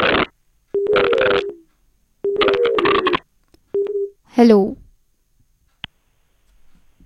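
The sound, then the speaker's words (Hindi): Telephone line tones sound as a radio caller is connected: steady, low electronic tones in a few bursts with pauses between, mixed with a speaking voice, ending in a single brief click. “चलिए श्रोताओं, हम कोशिश करते हैं एक आखिरी collar से programme के अंत से पहले जुड़ने की।”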